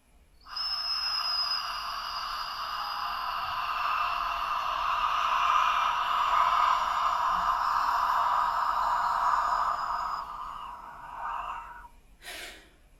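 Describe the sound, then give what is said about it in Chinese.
A slow, controlled exhale from a breathing exercise with core support, one long, steady, airy hiss held for about ten seconds before it fades, followed by a brief faint sound. “然后腰腹支撑，然后慢慢排排排，把所有的气息都呼出为止。”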